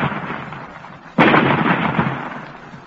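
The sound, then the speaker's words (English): Artillery fire blasting and splitting a rock: a single sudden, loud boom strikes midway through, then decays into a long rumbling roar after a dim low rumble. “They have found the range, Commander. You may fire. Fire! Look, the rock is splitting.”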